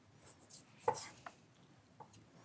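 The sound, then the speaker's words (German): Soft knife strokes thinly slice meat with a fat rind against the grain, giving a few faint, separate cuts at an irregular pace over a quiet background. “Muss man ein bisschen gucken, dass man gegen die Faser schneidet.”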